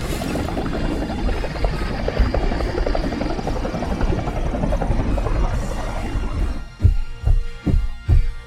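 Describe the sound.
Firefighting helicopter hovering over a pool at a wealthy mansion, drawing water up through a hanging hose: a dense, steady rotor and engine roar that gives way to loud, rhythmic blade thumps near the end.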